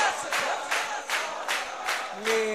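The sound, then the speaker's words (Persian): A concert audience claps along in unison, a steady rhythmic beat roughly twice a second, and a faint sustained tone enters near the end. “من که دارم میخونم اینقدر خسته کف میزنی”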